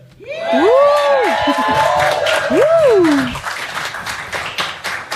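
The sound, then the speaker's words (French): Cheering from a live radio studio audience in the Bauges: two long whooping shouts that rise and fall over a burst of clapping, followed by scattered claps that continue to the end. “Oh, un public en folie ce soir.”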